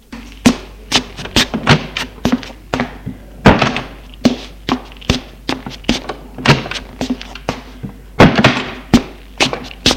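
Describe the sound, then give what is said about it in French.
Knocking on a bedroom partition wall: many dull, hollow thuds and taps in uneven bursts, loud and sharp against a quiet background. “On frappe à la cloison.”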